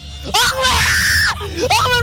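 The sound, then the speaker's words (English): A man screams in loud, high, strained bursts. A long scream with wavering pitch is followed by a shorter one after a brief pause, with no other sounds around them. “Actually, that's not the girl screaming. That's the idiot guy screaming, I think.”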